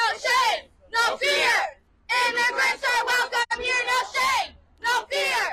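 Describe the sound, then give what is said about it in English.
Activists from the nonprofit Florida Immigrant Coalition chant and shout at a protest outside a Miami state senator's office. Loud, rhythmic bursts of many voices are separated by short pauses. “Those were activists from the nonprofit Florida Immigrant Coalition yesterday protesting outside the Miami office of State Senator Ileana Garcia.”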